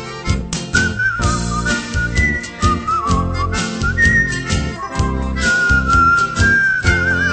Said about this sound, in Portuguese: Assobiando sempre esta melodia, o passageiro entra no meu bom humor.